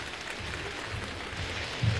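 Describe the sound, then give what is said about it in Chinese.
Audience applause greets a traditional crosstalk comedy act performing at a university: dense, even clapping with no separate claps standing out, fairly soft, continuing throughout. “感谢您的掌声， 谢谢， 谢谢大家 啊。”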